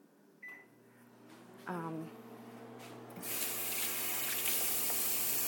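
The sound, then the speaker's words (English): Kitchen tap water running as hands are washed after handling raw chicken. A short electronic beep and a brief voice come first, then the water gushes on partway through and keeps pouring steadily. “I think I wash my hands like 10 times when I'm making this.”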